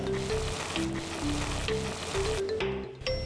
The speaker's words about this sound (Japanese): 煮立ってきましたね。 煮立ってきたね、うん、この中にちょっと煮立ったら大さじ1杯ぐらいのお砂糖入れますね。